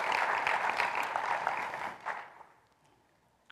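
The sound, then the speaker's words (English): Audience applause for a graduate: steady, fairly loud clapping for about two seconds, then it thins out and fades into near quiet. “I mean, give Colton a hand, right?”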